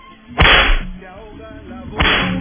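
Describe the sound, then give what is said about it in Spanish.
Whip lashes as a sound effect: two sharp, loud cracks separated by a short pause, each followed by a brief noisy tail. “Démosle a Auerbach los latigazos también.”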